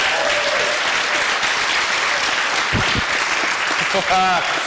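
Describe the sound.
An audience applauds for a volunteer, with steady, dense clapping that continues throughout. A few voices call out over the applause near the end.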